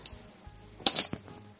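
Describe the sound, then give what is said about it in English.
Dice rolled during a tabletop game, giving a few quick, bright clicks and clinks close together, fairly faint, with quiet pauses around them. “Best 2 out of 3 on the dice roll.”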